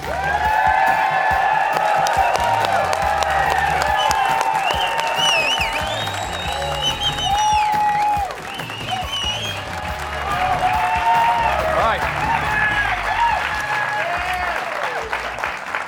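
A studio audience in Studio C applauds and cheers as the second-year head coach of the BYU Cougars enters. Loud, sustained clapping is mixed with whoops and whistles, dipping briefly midway before swelling again.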